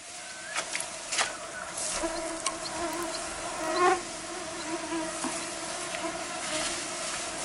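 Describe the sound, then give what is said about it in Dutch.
Mosquitoes buzz on the tundra in a steady, thin, high drone that swells briefly several times, with no voices present. “Ik begreep, Ruda, dat er nogal wat muggen zijn, hè, daar? Ja, enorm veel muggen, inderdaad.”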